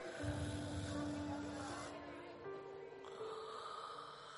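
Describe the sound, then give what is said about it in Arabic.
A tired, exhausted boy snores while asleep in class, his head slumped on his chest. A loud, rough, rasping snore fills the first two seconds, then continues more softly over a steady low tone. “وفي المدرسة يتذكر مذاق نعيمة فيبتسم خفية، ثم يسقط رأسه الثقيل المنهك على صدره ويشخر”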